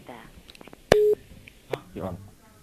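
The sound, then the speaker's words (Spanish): A single short telephone line tone sounds as a call to Kenya cuts off, a steady electronic beep lasting about a quarter second, surrounded by people talking. “Se nos ha cortado la llamada”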